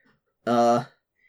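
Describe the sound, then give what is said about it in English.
A person vocally imitates a click as something is opened: one short voiced burst, loud and steady for under half a second, with near silence before and after. “You hear like a click, and he opens it up”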